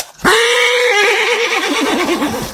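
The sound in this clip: A frightened, trembling mare lets out one loud, long whinny. It starts abruptly, holds a steady pitch, then breaks into a quavering warble as it fades.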